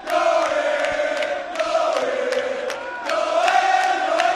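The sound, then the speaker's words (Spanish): About 2,000 fans chant and cheer for football players standing on a balcony above them after reaching the cup final. The sustained, loud crowd singing has rhythmic swells and sharp accents. “Los jugadores en un balcón y justo debajo unas 2.000 personas aclamándolos.”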